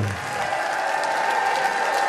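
An audience applauds the performers at a live concert in Marietta on the Ohio River, steady clapping with a sustained tone and a little cheering beneath.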